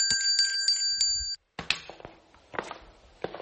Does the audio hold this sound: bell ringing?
yes